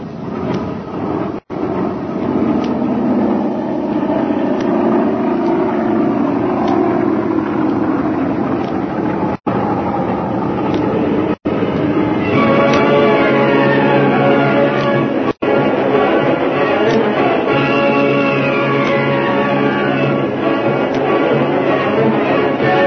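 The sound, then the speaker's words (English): A big passenger airliner takes off from a concrete runway, its loud, steady engine roar continuing throughout, with whining tones emerging in the second half. “Concrete runway, up into the air, the big passenger airliner takes off on the first leg of its eventful journey southwest to Mexico.”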